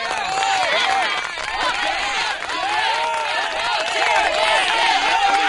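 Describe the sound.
A studio audience calls out together, many voices merging into a dense, continuous, loud din of cheering and shouting that stays steady throughout.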